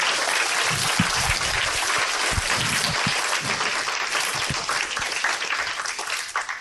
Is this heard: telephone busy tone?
no